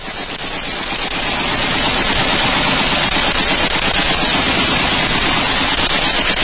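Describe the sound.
Machine-gun fire roars as one dense, rapid, continuous burst, loud and unbroken, swelling in over the first couple of seconds and then holding steady.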